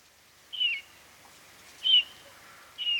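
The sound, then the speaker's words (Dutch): Bullfinch calls over wet grassland: three short, soft piping whistles, evenly spaced across a quiet background, with no talk. “er ging goudvink.”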